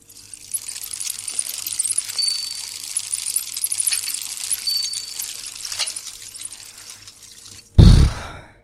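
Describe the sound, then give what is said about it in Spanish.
A small splash as a mobile phone is thrown into the Guadalquivir river at night. A steady hiss runs underneath until one short, sharp splash near the end, with no voices. “El teléfono levantó una salpicadura diminuta y perfecta como la soñada por el mejor saltador de trampolín.”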